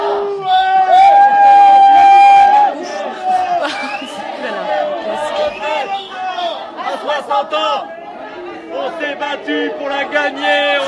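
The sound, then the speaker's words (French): A euphoric crowd sings a Creole maloya welcome chant in the town of Saint-Pierre. Many voices blend loudly, holding sustained notes for the first few seconds before moving into a busier, more varied stretch of singing and shouting. “Bon, alors ça, c'est un chant d'accueil local, hein. C'est un maloya, on appelle ça, c'est du créole.”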